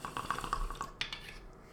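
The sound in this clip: Water bubbling in a bong as a bowl is smoked, a quiet, steady run of many small watery pops and gurgles.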